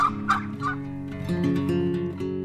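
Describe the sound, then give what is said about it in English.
Several full-grown broad-breasted white turkeys gobbling on a farm in autumn, with a few rapid warbling gobbles at the start and overlapping lower calls that drone on after them, with no voices. “they're full grown, so they're pretty big birds. They are broad-breasted white turkeys.”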